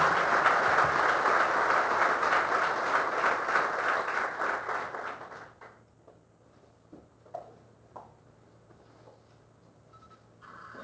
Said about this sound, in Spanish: La recibimos con el mejor de los aplausos,